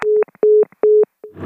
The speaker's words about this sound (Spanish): Se ha colgado la llamada.